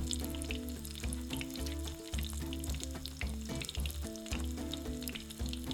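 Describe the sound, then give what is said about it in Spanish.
Potatoes, aubergine and tomato frying in a pan for a Palestinian chicken and vegetable dish, giving a dense, continuous sizzle with small crackles that hold steady throughout and no talking. “Ahora en una sartén freímos las patatas, la berenjena y el tomate. No tiene que cocinarse del todo, solo que se doren.”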